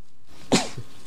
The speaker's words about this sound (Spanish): Perdonen ustedes, pero es que se ve que tengo alergia y llevo una mañana terrorífica estornudando, y por eso puede que haya más de una interrupción.